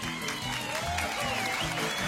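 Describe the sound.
Audience applause for country guitarist Merle Travis at a live show with a western swing band, a dense, steady patter of clapping with a voice heard over it.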